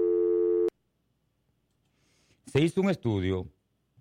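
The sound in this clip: A telephone signal tone sounds as a single steady, buzzy beep lasting under a second as a call is taken, then silence, then a brief burst of speech.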